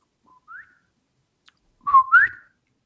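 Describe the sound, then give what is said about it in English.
A person whistles an imitation of a bobwhite quail call: a faint short note and a brief rising whistle, then a louder two-note phrase whose second note sweeps upward. “That's right. That is the sound of a bobwhite quail.”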